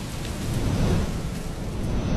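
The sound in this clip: Heavy rain hisses steadily while a low thunder rumble swells beneath it, growing loudest around the middle before easing off. The broad, dense roar has no voices.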